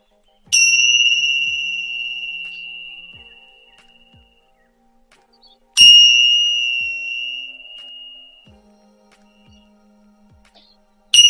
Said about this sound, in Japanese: ティンシャーのベルで、ちょっとね、場を整えます。ちょっと高い音が鳴りますのでお待ちください。3回鳴らします。